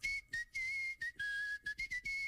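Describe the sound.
A person whistles while barely moving the lips, a clear high steady tone broken into many short bursts of varying length with small steps in pitch between them. No talking is heard.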